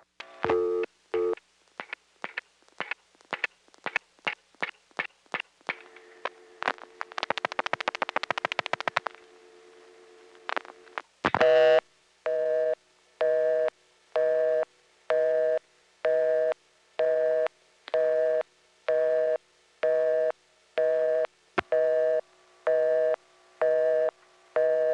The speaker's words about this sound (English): You might have noticed the click there, followed by the change in the background noise of the busy signal.